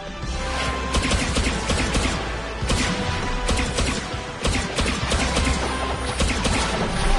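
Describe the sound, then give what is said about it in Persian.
Gunshots fired at targets during shooting practice: a few sharp, loud reports burst out of a dense, continuous roar of noise that runs through the whole stretch. “چند تا هدف رو بزن.”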